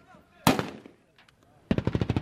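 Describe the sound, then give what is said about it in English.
Gunfire aimed at green flag bunting on a lamppost in front of a major checkpoint: one sharp, loud shot with a ringing tail, a pause, then a rapid burst of many cracking shots. “And the shooting you hear is them trying to shoot down green flag bunting that's attached to one of the lampposts in front of this major checkpost”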